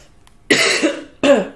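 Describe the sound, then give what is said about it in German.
Coughing from a person apologising for a cough: two harsh, fairly loud bursts, the first longer and rough with a second push inside it, then a shorter, sharper cough after a brief pause. “Müssen wir heute ein bisschen meine Husterei verzeihen.”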